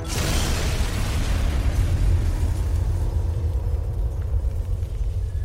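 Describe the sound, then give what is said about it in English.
A tower explodes in a dense, roaring blast of noise that stays loud and rumbling throughout, its bright hiss thinning slightly after the first moment. “A bright light engulfs everyone in the canyon, and the tower explodes.”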